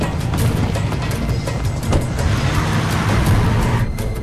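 A 4x4 pulls up amid dense New York traffic, a loud, steady rumble of engines and road noise with swells of passing vehicles throughout.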